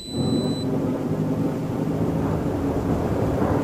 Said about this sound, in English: Suit restraints for atmospheric entry after the first braking burn. Breaking burn 5 seconds from now.